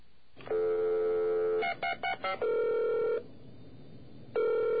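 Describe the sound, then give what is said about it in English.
A hotel room phone sounds its voicemail button-press tones: a sustained electronic tone, three quick beeps, another steady tone, a pause, then one more tone. The tones are clean and clear, with no voices. “We pressed the button to find out how many messages we had, and this is what we heard.”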